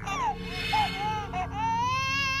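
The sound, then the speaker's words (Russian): A baby cries desperately far off on a ship, behind many doors, in a continuous high, wavering wail that breaks briefly into sobs midway. “Плакал ребенок. Где-то далеко, на другом конце корабля, за многими дверями отчаянно плакал,”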